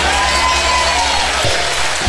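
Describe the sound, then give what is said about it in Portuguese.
A church audience applauding and cheering during a service, a dense rush of clapping and voices mixed with sustained tones, steady and loud throughout. “Aplauda o nome do Cordeiro que tira o pecado do mundo.”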